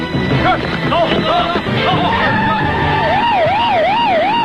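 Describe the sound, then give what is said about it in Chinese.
Police car sirens wail loudly with a fast rising-and-falling tone that cycles steadily, joined by vehicle noise, and people talk early on. “有很多警车”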